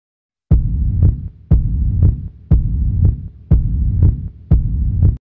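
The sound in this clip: A heavy heartbeat pounds in five steady lub-dub double thumps, evoking a chest pounding at sudden danger. Each beat is low and dull, with a soft throbbing hum between beats and no voices.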